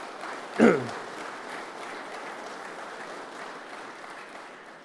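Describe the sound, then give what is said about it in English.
Soft round of applause in a church, a quiet, diffuse patter of many hands that stays even throughout, with one brief louder knock near the start. “And although we do not normally applaud in church, I think she does deserve a wee round of applause.”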